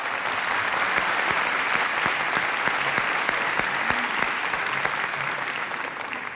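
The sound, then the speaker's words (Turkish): Audience applause after a folk song performance: a thick, continuous clatter of many hands, with sharper single claps poking through, steady and loud before easing slightly at the end. “Ayrıca türkümüze tarla yaptığı açışıyla Mirza Başaray'ı da alkışlayalım mı?”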